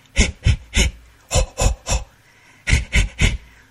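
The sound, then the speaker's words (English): A person demonstrates rhythmic breathing, giving nine short, loud, breathy puffs in three groups of three, with brief pauses between the groups and no other talk. “Relax. The trick is to breathe. Like this.”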